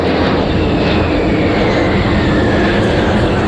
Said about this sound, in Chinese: 涂着八一军徽的苏二七战斗机群超低空掠过海面